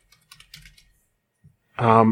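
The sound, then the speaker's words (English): Typing on a computer keyboard: a short run of soft, quick keystroke clicks, then a pause before a voice starts speaking. “I'll type in Frances Stevens.”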